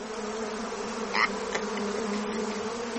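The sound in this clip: Bees buzzing in a steady, continuous drone that holds an even loudness throughout, with a brief brighter buzz passing near the middle.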